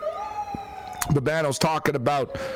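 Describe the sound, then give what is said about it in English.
An emergency vehicle siren holds a loud, steady wailing tone, then a man starts talking over it as it continues in the background. “that siren's loud. man, tried to talk through it there. I'm like, man, it's getting louder and louder.”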